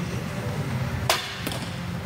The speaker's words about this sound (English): Nine. That's a solid arrow. That's a solid arrow. I'm sure he wishes that it was in the 10.